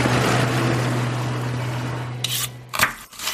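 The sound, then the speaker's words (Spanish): A Turbo Thunder kitchen blender with titanium alloy blades runs with a steady, gritty motor whir over a low hum, ending in a few sharp, scraping bursts. “nuevo diseño aerodinámico, con su tecnología avanzada, con sus nuevas cuchillas de aleación de titanio, la Turbo Thunder está diseñada para hacer las delicias de cualquier amante de la cocina.”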